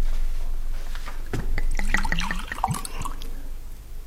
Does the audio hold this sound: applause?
no